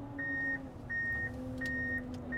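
Reversing beeps from a snow groomer as it sets off: three evenly spaced high electronic tones, with a fourth starting at the end, over the machine's low, steady engine drone.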